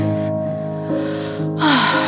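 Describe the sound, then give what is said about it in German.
A deep inhale through the nose during a meditation breathing exercise: a soft, breathy rush of air over sustained, gentle ambient music. “Und noch einmal durch die Nase ein, ganz tief.”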